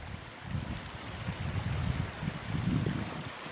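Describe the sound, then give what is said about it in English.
Creek water flows in a steady, continuous rush with a low rumbling undertone, holding an even level throughout with no voices. “Part of the creek is going that way and part is going the other way.”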